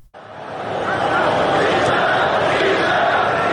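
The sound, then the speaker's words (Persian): Football stadium crowd chanting 'bisharaf', a dense, loud roar that swells within the first half second and then holds steady without a break. “مثلا این صدایی که الان می‌شنویم مربوط به گزارش انگلیسی مسابقه است که صدای بیشرف بیشرف تماشاگران خیلی واضح به گوش می‌رسه.”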